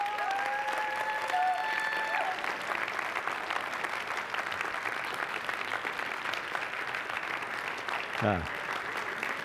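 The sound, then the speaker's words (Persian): A church audience applauding on Pentecost, a steady, dense patter of many hands clapping that holds throughout, with a voice heard over the opening moments. “هر چقدر برکت گرفتید همونقدر دست بزنید.”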